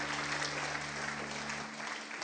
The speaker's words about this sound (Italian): Facciamo un applauso al Signore, diamogli gloria.